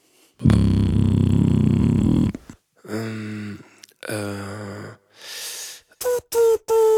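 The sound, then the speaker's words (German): Beatboxed bass sound made by a voice imitating a synth: a long, loud, buzzing low drone, then two shorter growling bass tones, a breathy hiss, and a few clipped tonal bursts. “Mach mal noch einen Bass-Sound oder irgendeinen Ton,”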